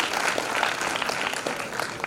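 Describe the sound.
Audience applause for the host of a startup pitch event, a brisk, dense clatter of many hands clapping at a fairly even level for about two seconds, with no speech over it.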